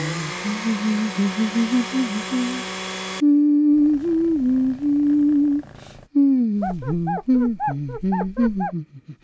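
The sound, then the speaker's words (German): Dog howling in a radio drama, where it also scratches at a door: long wavering whining howls in several stretches, then a run of short yelps that rise and fall in pitch. No scratching is evident. “Der Hund begann zu jaulen und an der Tür zu kratzen.”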